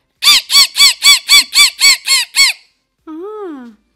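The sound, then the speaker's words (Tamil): A human voice imitates a parrot's screech: nine short, sharp squawks in a quick, even rhythm, then one longer, wavering call. “கிளிப்பிள்ளைன்னு சொல்லுவாங்க, அந்த கிளி எப்படி கத்தும்னா”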